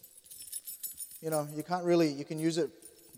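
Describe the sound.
Keys jangle in a faint, bright metallic rattle and chink. A person's drawn-out vocal tone follows.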